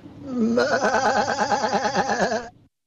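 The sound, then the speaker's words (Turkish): A sacrificial sheep bleats in one long, loud, wavering cry that trembles rhythmically at a high pitch for over two seconds, then stops abruptly into silence. “Kurbanlık koyun hocam.”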